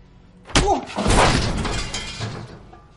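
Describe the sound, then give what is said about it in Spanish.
A man punches another man in a tense thriller scene: one sharp impact is followed by a long, loud crashing and scraping noise that slowly fades, with a short voiced grunt just after the hit. “Javi hace una mueca a Canario y este golpea a Muñeco.”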